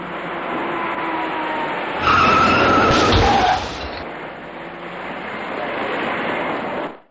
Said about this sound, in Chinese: 前面的车明明已经减速停下，他却完全忽视，转眼间酿成了一起三车追尾的事故。